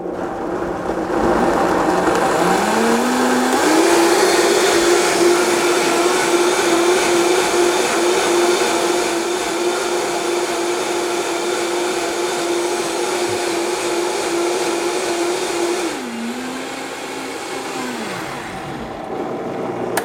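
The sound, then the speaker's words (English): A Vitamix blender purees soup with a loud, steady motor whine that ramps up in pitch, holds for a long stretch, briefly dips and climbs again before cutting off. “I'm going to go ahead and then just give this the full works on the old Vitamix here. I want this pretty much pureed smooth, so you'll pardon the noise for a moment.”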